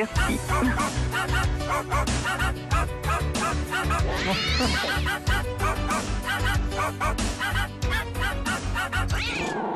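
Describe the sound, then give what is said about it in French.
Dogs barking and yipping and cats meowing, edited together so the animals sing a French pop song. Continuous dense yips and barks run over a musical backing throughout. “nos animaux de compagnie remuent la queue quand ils écoutent Nostalgie. Pas que, Pour trouver la chanson Nostalgie chantée par nos chiens et nos chats”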